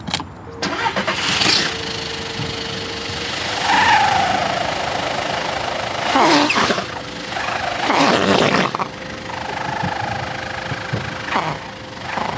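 A car engine runs through its exhaust during an exhaust sound test, a steady idling rumble broken by a few short, louder throttle blips.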